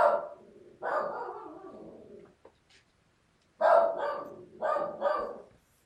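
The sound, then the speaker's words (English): A dog barks in another room: a few barks, a short quiet gap, then three more barks in quick succession, each strong and rough. “Know you can probably hear my dog barking in the other room.”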